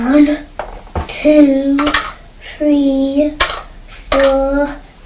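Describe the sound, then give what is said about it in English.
Raisins dropped into a small pot, one after another, give several light, sharp clinks. A child's voice is heard between the drops. “We'll pop them in the pot.”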